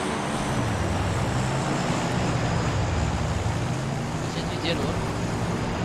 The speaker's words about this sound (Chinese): 好的，我开跑车来载你。